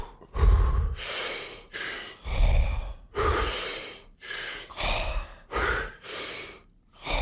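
Deep breathing exercise: many forceful inhales and exhales through the mouth in a fast, steady rhythm, each breath a loud rushing whoosh separated by brief gaps, with no talking.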